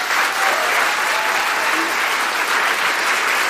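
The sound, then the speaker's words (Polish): Audience applause at a celebration of a radio station's 62nd anniversary, called for by the host on stage. A short, even burst of many hands clapping holds at steady loudness throughout. “Może oklaski dla Trójki.”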